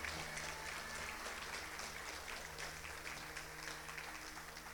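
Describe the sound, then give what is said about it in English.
Congregation applauding in a church service during a salvation call: faint, steady clapping sustained throughout, with a low hum underneath. “Come on, put your hands together for those three individuals.”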